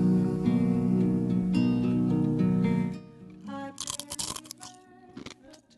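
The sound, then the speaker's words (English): Someone chomps loudly on a crunchy snack right into the mic, making many close, crackling bites after a sustained musical passage cuts off. “Of all the bits to bring back, we got to bring back the you chomping into the mic bit. I know it's been a while since we had a show snack.”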